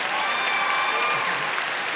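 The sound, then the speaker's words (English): Church audience applauding during a service, a dense, steady wash of clapping that stays loud and even from start to finish. “Well, come on, you can clap a little better than that.”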